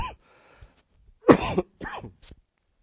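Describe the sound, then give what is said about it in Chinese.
A person with a cold and a hoarse voice coughs a few times: short, rough, throaty bursts separated by quiet gaps. “最近因为感冒哈，声音是非常的沙哑，而且咳嗽哈”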